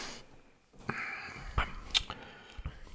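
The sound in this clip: A sip of a fruity summer beer from a Waikiki brewery: quiet wet mouth sounds, a short slurp and a few soft swallowing clicks, with no talking.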